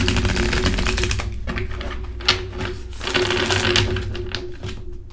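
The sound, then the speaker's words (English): Tarot cards being shuffled and drawn from a deck, a rapid run of crisp papery clicks and flutters over a steady low hum. “all right, pull some cards here. Wow, bottom of the deck”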